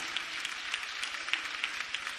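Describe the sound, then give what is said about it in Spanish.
Soft applause from a church audience, a faint, even patter of many hands clapping throughout. “Aleluya, démosle un aplauso al Dios de gloria.”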